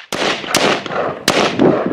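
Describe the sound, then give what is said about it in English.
Gunshots from armed men doing guerrilla-style training, firing on the run and taking cover: several sharp, loud cracks at uneven intervals, with fainter shots between them and a steady, noisy background. “In this video posted to the YouTube channel of the Real 3%ers of Idaho, men shoot on the run, take cover, and shoot again.”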